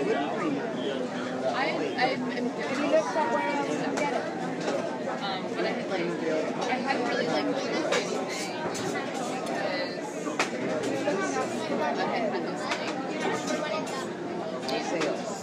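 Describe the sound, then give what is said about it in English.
Crowd chatter from many people waiting in a long line: a steady, dense babble of overlapping conversations with no single voice standing out, holding at an even level throughout. “All kinds of conversations to be found here. It's like listening to all radio stations all at once.”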